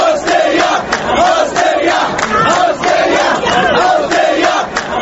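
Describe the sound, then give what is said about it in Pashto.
Crowd of Mubarak supporters chanting slogans outside a courtroom, loud rhythmic chants repeating in regular waves without pause. “د مبارک لښته لږ یو نیم سل پلویان نن د محاکمې د خونې د باندې د هغه له پوسټرونو سره راغونډ شوي وو او د هغه په پلوي شعارونه ورکول.”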